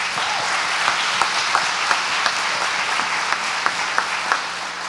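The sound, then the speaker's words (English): Audience applause breaks out during a church service to greet online viewers: a sustained, even wash of many hands clapping, with a few sharper individual claps standing out. “Could you put our hands together for those who are watching us online?”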